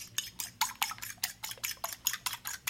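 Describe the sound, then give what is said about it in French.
A whisk stirring milk into a mixture in a bowl, many quick, evenly spaced clinks and scrapes at a steady rhythm, fairly faint, with no talk. “On ajoute 1 demi-litre de lait. Verse-le doucement. Mélange encore.”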